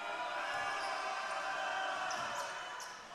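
A basketball is dribbled before a free throw at a high school boys' game, with a few soft bounces under a steady, fairly quiet hum of crowd noise.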